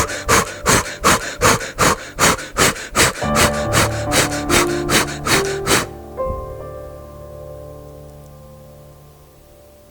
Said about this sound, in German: Atme ein paar Mal ganz schnell ein und aus mit den Armen nach oben. Das hört sich so an.